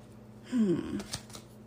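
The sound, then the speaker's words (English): An affirmation card deck being shuffled: a short, quiet riffle burst followed by a few soft clicks of the cards. “affirmation deck. You shuffle in whatever way feels right.”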